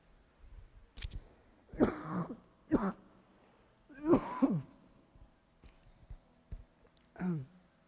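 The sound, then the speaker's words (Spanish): A man coughs and clears his throat during a church sermon. Several harsh bursts of uneven length are separated by short quiet gaps over a faint low hum. “Y busquen Hechos 2 mientras yo toso.”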